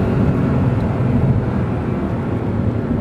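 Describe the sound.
A car engine accelerates hard after an upshift, a loud, deep, steady roar of rumbling low tones with no talking.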